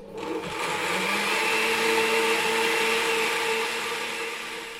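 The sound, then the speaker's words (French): A blender whirs steadily as it mixes squash seeds and pulp with maple syrup and cinnamon. Its loud motor whine holds a fairly even pitch throughout, with no voices. “Je les mets dans le mixeur. Une cuillère à café de sirop d'érable. On va mettre une cuillère à café de cannelle. Et c'est déjà prêt, il n'y a plus qu'à mixer. Attention les oreilles.”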